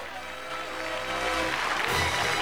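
Polite clapping from a prom crowd as the prom king is announced, a broad, soft wash of applause that swells gradually and grows louder toward the end.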